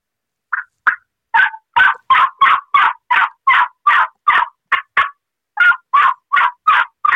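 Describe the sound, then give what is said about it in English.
Loud turkey yelping blown on a Woodhaven modified cutter mouth call: two rhythmic series of raspy, evenly spaced yelps separated by a short pause. “This is my modified cutter. It's in our mouth call line. But I'm going to do some regular yelping. I'll give you an example about toning it down and learning the softer stuff. This is the louder yelping.”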